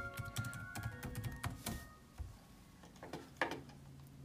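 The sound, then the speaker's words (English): Quiet typing on a computer keyboard, an irregular patter of many soft key clicks with a few brief pauses and no voices. “Let me type in the, what did I say it was called? The Twin Famicom. Let me try that. Let me see what pops up here for that.”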